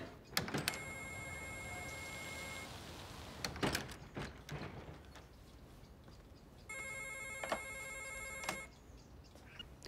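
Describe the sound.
Ringback tone on an outgoing telephone call: two long, steady electronic rings separated by a pause with scattered clicks and knocks. Faint overall.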